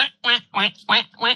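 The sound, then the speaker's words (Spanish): A duck quacks five times, each call a short, raspy, nasal burst, evenly spaced and fairly loud. “¡Pato, pato!”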